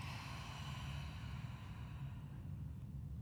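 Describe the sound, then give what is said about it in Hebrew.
A long, deep exhale through the mouth during a guided breathing exercise: a faint, steady, breathy rush of air that holds evenly for the whole stretch, with no talking. “נשחרר שפתיים, נוציא מלא אוויר מהפה.”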